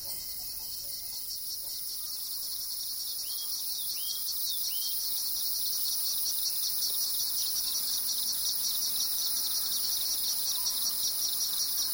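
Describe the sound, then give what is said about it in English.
Crickets and other insects chirp in the lower valleys along a trail, forming a dense, continuous high-pitched trill that stays steady and fairly loud for the whole stretch, with no voices. “Insects.”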